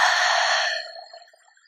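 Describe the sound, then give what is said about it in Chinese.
A slow breath pushed out through an open mouth during a relaxation exercise. The soft, airy haa holds steady, then trails off and fades away. “慢慢的吸气，张开嘴巴哈气，”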